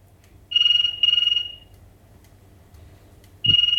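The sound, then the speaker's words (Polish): An old RWT Aster 7 wall-mounted telephone rings in loud, buzzy bursts: two short rings close together, a pause, then a third ring beginning. “Telefon RWT Aster 7, telefon bratek... Brzmiał tak.”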